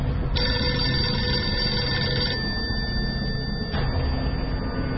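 A telephone rings with a steady, high electronic tone that holds for about two seconds. A thinner tone carries on after it, over a constant low rumbling background, with no talk.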